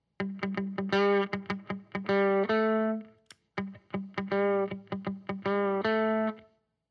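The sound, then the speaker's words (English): Electric guitar played through a compressor pedal, plucked notes and chords with even, squeezed sustain, broken by a single sharp foot switch click near the middle before the playing resumes. “and then you're going to hear the foot switch click, and you're going to hear the demo with a compressor.”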